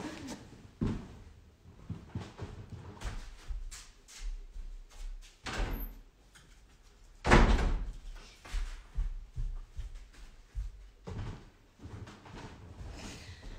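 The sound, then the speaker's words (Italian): A door being opened on a snowy day to let someone in from outside: a run of irregular thumps, knocks and clatter, with one louder bang midway and softer handling noises around it. “Adesso però mi chiede di entrare. Vado ad aprire la porta da chi? Aspettatemi un attimo.”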